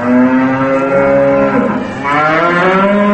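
Cows moo in a dairy barn: two long, loud, drawn-out moos follow closely one after the other, deep and resonant, with no talk.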